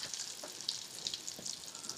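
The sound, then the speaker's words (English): Eggs sizzling in a frying pan for an omelet, a steady, quiet hiss of frying with faint crackles and no talk over it. “so the eggs are gonna go in now.”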